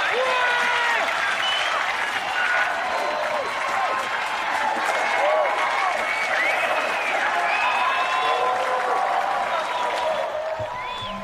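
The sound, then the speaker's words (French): Sustained audience applause and ovation for a performer on a show, steady dense clapping throughout with whistle-like cries and crowd voices above it. “Tu as été génial! C'est une ovation!”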